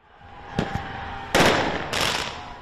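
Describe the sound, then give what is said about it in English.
Fireworks set off by protesters at a police station burst in a few sharp bangs, the loudest followed by a sustained crackling rush, all over steady background noise. “That's the sound of fireworks set off by some protesters at the Brooklyn Center Police Department.”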